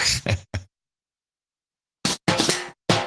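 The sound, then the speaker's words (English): A rim shot drum sting plays in two quick three-hit phrases, each a bright crack that rings out. The two phrases are separated by a short silence. “Yeah. We know your rim shot. Good. Without a rim.”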